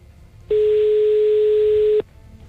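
A telephone ringing tone sounds on a call: one steady, pure, mid-pitched tone lasting about a second and a half, starting and stopping cleanly over a faint background hiss.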